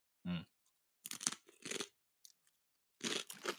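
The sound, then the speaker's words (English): Crunchy bites and chewing of salted, slightly sweet fried wonton wrapper chips: a handful of crisp, crackly bursts separated by short pauses, heard alone without talk. “It looks like a fried Rangoon wrapper thing, and that's what it tastes like to me, fried but chips.”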